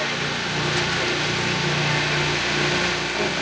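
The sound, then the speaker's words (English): A lawnmower engine passing in the background, a continuous droning hum at a fairly constant pitch and level, with no talk. “Also, oh, there's somebody coming in the background. Oh, great. A nice little lawnmower coming.”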